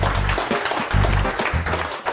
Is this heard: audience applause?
yes